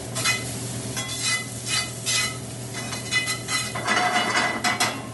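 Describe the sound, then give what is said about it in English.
Shallots fry and caramelize in a pan with a steady sizzling hiss. Repeated scraping and stirring sounds run throughout, with no talking. “that browning that you're seeing, that's the natural sugars in the shallots. It's called caramelization.”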